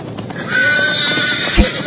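A roan horse struck in the hip by a splinter gives a loud, drawn-out whinny lasting over a second, followed by a heavy thump and a shorter burst of sound.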